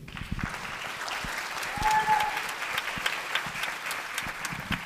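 Audience applause welcomes a singer to the stage before she performs a movie soundtrack song. The clapping is dense and steady throughout, swelling briefly near the middle and then holding at an even level.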